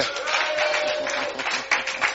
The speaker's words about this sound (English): Give the Lord a shout of glory. Glory. And a clap offering of glory.